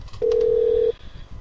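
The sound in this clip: A telephone number being dialed, heard as a single steady keypad tone lasting under a second over a faint, low background rumble.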